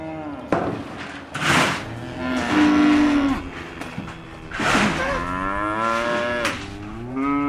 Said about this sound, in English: We've got somebody's replacement dairy heifers. As you can see, they're a mixture of breeds, Montbéliard, Jerseyans, Frisians, and we just rear them.